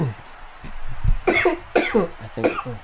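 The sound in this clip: Dry, raspy coughing from an irritated throat, a few harsh bursts in quick succession, loud and breathy, with low throat noise between them.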